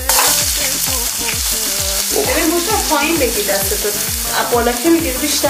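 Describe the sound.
Meat sizzles loudly in hot oil, a dense, constant crackle broken by many regular scraping strokes of a utensil stirring through the pan.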